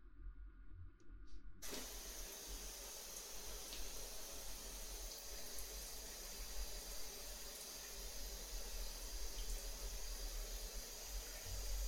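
A running shower sprays water in a steady, even hiss that switches on a little after the start and continues unbroken at a low level.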